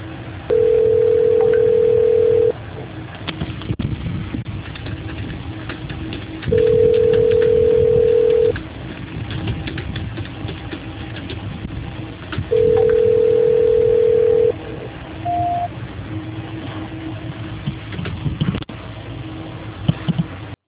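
A telephone call transfer tone sounds as three long, steady beeps of about two seconds each, evenly spaced, with faint line noise in between.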